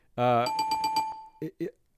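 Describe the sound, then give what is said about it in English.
A bell sound effect rings out as a sustained bright tone with several quick repeated strikes, framed by brief voice sounds before and after. “Give yourself a triple bell there.”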